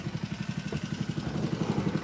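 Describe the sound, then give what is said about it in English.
A water pump runs steadily while recirculating water so it won't burn up, a low, rhythmic chugging throb that pulses evenly throughout with no talk. “we're recirculating here so we don't burn up our pump”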